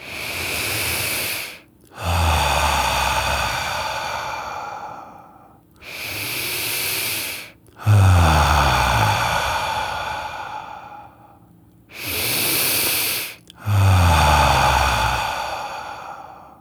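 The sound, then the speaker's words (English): Deep breathing, three slow breaths drawn in and let out: each is a long, airy inhale followed by a fuller, rushing exhale, loud and alone, with brief pauses between. “Where do you feel the most tension? Go there right now and do three more deep breaths.”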